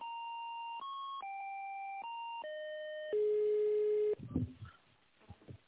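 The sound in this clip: Telephone line tones sound while a call is being connected. A string of steady electronic tones shifts in pitch step by step, then a single lower tone holds. Brief clicks and noise follow.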